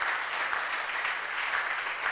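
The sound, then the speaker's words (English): A church audience claps during a sermon, producing a dense, continuous patter of many hands at an even, moderate loudness for about two seconds, with no distinct single claps and no voices. “Clap, clap, clap. Put your hands together.”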